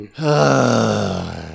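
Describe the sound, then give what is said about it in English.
A person lets out a long, exasperated groan, a loud, low, sustained vocal sound lasting over a second that gradually fades, with no words. “I cannot groan long enough to get this, to make this point.”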